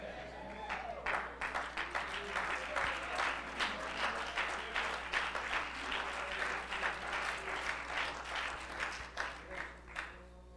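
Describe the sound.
A church audience claps in praise, a steady, faint patter of many hands continuing evenly throughout over a low electrical hum.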